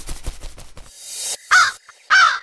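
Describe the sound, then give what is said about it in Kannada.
A crow caws twice as it snatches a piece of bread from a boy: two loud, harsh, rasping calls in the second half, preceded by softer fluttering sounds. “ಕಾಗೆ, ಕಾಗೆ ಅಮ್ಮ, ಕಾಗೆ! ನನ್ನ ಅಪ್ಪಚ್ಚಿ ತಗೊಂಡು ಹಾರ್ಬಿಟ್ಯಾ?”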